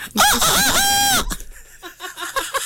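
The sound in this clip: A rooster crows loudly in one long, harmonic call with a wavering pitch that settles and holds before cutting off. Fainter, choppy sounds follow.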